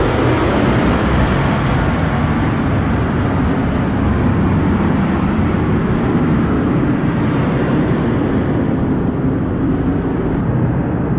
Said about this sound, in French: il va falloir faire juste attention parce qu'il y a, je pense, un FA-18 qui va décoller. Et ça va faire un petit peu de bruit. Hein. ça fait vraiment du bruit.